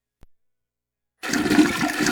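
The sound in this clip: A toilet flushes after a faint click and near silence, then a steady, loud gushing rush of water runs on to the end.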